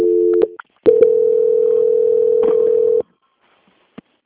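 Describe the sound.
Telephone tone as a bank call is transferred: a short steady tone, a brief gap, then a long, loud, even tone of about two seconds that cuts off to silence, followed by a faint click.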